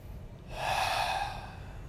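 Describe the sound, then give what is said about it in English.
One slow, deep breath taken during a relaxation exercise: a soft, airy rush that swells and then tapers away, faint and alone with no talking. “You can already start taking some deep breaths in through the nose, filling the body, and out through the mouth, just to relax a little bit.”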